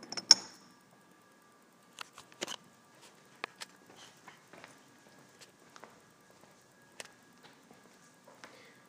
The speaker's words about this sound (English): This is the sound of the man walking on concrete, I think.